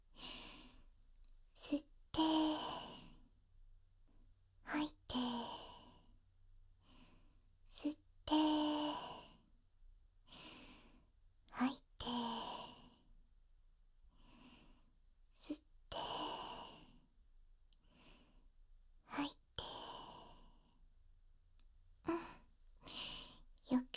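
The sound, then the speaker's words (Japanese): Slow, deep breathing during a guided breathing exercise: many quiet, spaced inhales and long sighing exhales, some slightly voiced, separated by near silence. “じゃあ、まずは深呼吸からしましょうね。”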